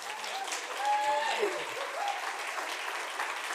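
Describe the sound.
A church audience rises and applauds to welcome a guest speaker at a weekend service. The clapping is dense and steady for the whole span, swelling slightly around the middle, with faint voices mixed in.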